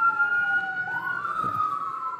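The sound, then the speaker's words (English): Fire truck sirens wail as the trucks pass by, a loud electronic tone dipping and then rising again, with a second siren tone overlapping it. “There's a sizable amount of fire trucks going that way.”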